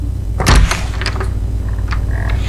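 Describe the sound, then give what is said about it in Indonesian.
An unlocked door at home being opened: a brief solid thunk from the door, followed by a few lighter clicks and rattles, fairly loud with no talk. “Iya sayang, buka saja pintunya, tidak dikunci kok.”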